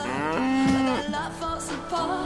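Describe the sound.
A bull mooing with one loud, drawn-out, tonal call that wavers slightly, heard alone.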